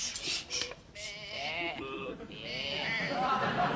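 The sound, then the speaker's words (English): A sheep bleats in a wavering, nasal cry that rises out of soft background noise and is followed by more faint, breathy rustling. “No, that sheep you've got there. No, that's definitely a sheep.”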